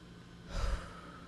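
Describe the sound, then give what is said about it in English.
A single deep breath, heard mainly as one soft, breathy exhale in the middle of an otherwise quiet moment. “you need to take a deep breath and go.”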